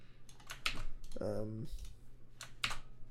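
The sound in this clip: Computer keyboard typing to copy and paste text, with a few bursts of quiet key clicks and a brief voiced sound in the middle.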